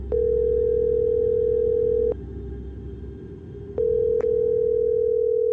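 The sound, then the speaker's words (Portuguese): Telephone ringback tone while a call is placed: a steady mid-pitched tone plays twice with a silent gap between the two rings, with no talking. “Lisa resolveu ligar para Anne, mas a jovem não atendeu. Então, ligou para Peter.”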